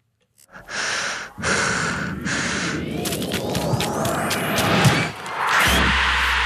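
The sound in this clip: A man's voice imitates a football radio show's penalty-kick jingle. Breathy bursts lead into a loud, sustained noisy roar laced with rising whistle-like tones, which ends on a low steady drone.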